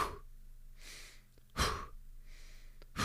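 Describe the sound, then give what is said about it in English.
Sharp breaths drawn in through the nose, each followed by a fast, hard push of air out through the mouth, as in a calming breathing exercise for anxiety done lying down. Soft inhales alternate with louder, gusty exhales over a couple of cycles, with no talking. “the way you breathe is you breathe in sharply, so, and then you breathe out very fast and hard through your mouth”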